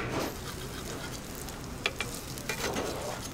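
Latkes frying in a pan and nudged with the back of a spatula: a faint, steady sizzle and crackle with a few small, sharp taps in the second half.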